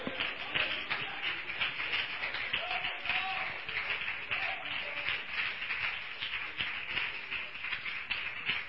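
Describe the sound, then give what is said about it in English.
A church audience applauding, with dense, continuous clapping at a steady level throughout and voices mixed in. “Give the Lord a round of applause,”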